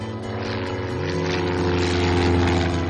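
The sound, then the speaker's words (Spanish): A small red two-seater light aircraft taking off from an airfield at sunrise, its propeller engine giving a continuous loud, rough drone that swells slightly as it goes. “El sol comienza a salir y una pequeña avioneta roja de dos plazas alza el vuelo.”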